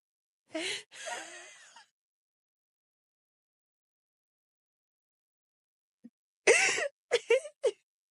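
A person deliberately wheezes on cue: a couple of strained, breathy vocal bursts at the start, then a long silence, and a few short, choppy wheezes near the end.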